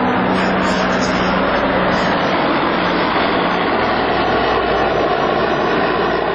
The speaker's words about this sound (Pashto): د مرجی پر اسمان د بارنیو ځواکونو دوه چورلکې، یوه جوټ او یوه هم ډېره ستره کشفي الوتکه ګرځي.